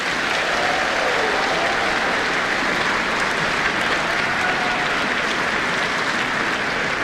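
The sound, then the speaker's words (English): Sustained audience applause at a choral awards event, a steady, dense wash of many hands clapping at an even loudness from start to finish, with no voices standing out. “Paki paki mai anō I te whānau.”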